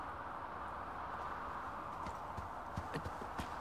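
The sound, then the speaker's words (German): A small pony's hooves clip-clop softly, faint over a steady hiss, with a few light hoofbeats growing more distinct toward the end. “Ein kleiner Hobbit auf einem kleinen Pony.”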